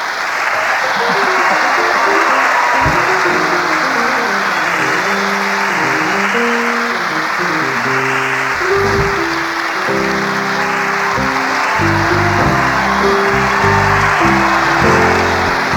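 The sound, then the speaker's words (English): Audience applause rolls on steadily for about sixteen seconds, loud and even, while music with shifting notes plays underneath. “You think this applause is for me? It is not for me, ladies and gentlemen.”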